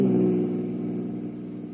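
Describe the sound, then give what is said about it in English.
A car engine drones low and steady as the car drives out of town through a blinding snowstorm, a continuous rumble that eases slightly in loudness over the short stretch. “Now back to Big Town and to Steve Wilson, Lorelei, and Harry the Hack as they drive out of Big Town in a blinding snowstorm to meet a streamliner carrying a woman passenger marked for death.”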